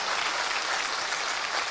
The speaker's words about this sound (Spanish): Pero cuando van a aplaudir, pues esto merece un aplauso.